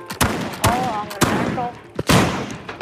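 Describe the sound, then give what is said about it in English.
Gunfire sounds outside: several sharp, loud cracks of shots at uneven intervals, with brief voices in between. “Guys, can you please stop shooting out there? We're shooting in here.”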